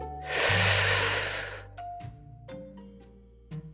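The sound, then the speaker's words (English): A long, deep breath drawn in and let out during a guided breathing pause, a broad airy rush that gradually fades, with soft chime-like tones sounding underneath. “One breath. And exhale fully. Let's take one more deep breath.”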